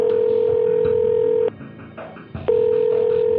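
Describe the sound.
A steady electronic telephone tone sounds while a call is dialed. It breaks off for about a second and then resumes, loud and even.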